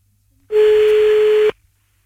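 A single steady telephone line tone as a call is placed again, one flat mid-pitched beep lasting about a second, starting and stopping abruptly against near silence.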